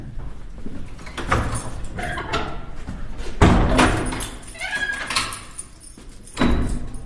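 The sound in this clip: A large, heavy door in a brick-built cloister corridor of a boarding school is swung shut and locked, giving scraping movement, a few heavy thuds and the clunks of the lock mechanism.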